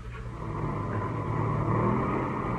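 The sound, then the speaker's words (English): A passenger plane's motors drone on during a flight, a continuous low rumble with a steady, even roar and no voices over it. “Motors sound okay.”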